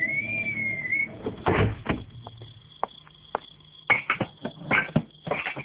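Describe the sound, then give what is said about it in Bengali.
A door lock rattles and bangs against the door in irregular clattering knocks, with a few sharper bangs. A thin whistling tone sounds briefly at the start. “দরজার তালাটা হঠাৎ কেন জানি নড়ছে, ঠাস ঠাস করে বাড়ি খাচ্ছে।”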